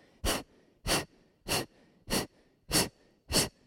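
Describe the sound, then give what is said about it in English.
Six forceful exhales from a breathing exercise, each a short, hissing puff of air pushed out through the mouth, evenly spaced in a steady rhythm with quiet gaps between them. “Exhale forcefully, and then just let the inhale happen automatically and passively. Stomach goes in, in, in, in. Exhale, exhale, exhale, exhale.”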